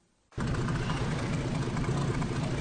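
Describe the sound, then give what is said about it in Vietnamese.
A fishing boat's engine runs at a fishing port in Đề Di, Gia Lai province. A steady, dense rumble starts abruptly after a brief quiet moment and holds at an even level throughout. “Tiếng sóng biển hòa cùng tiếng máy tàu tại khu vực cảng cá Đề Di, tỉnh Gia Lai.”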